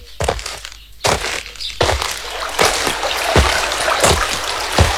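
Water splashing and trickling as someone washes their body: many sharp splashes over a continuous rushing hiss.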